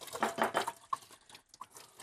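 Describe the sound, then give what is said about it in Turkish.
Yogurt being added to milk in a bowl while preparing a batter gives soft, wet dolloping and dripping sounds. They come in a few irregular bursts, louder at first and then thinner and more scattered. “Yoğurdumu ilave ediyorum.”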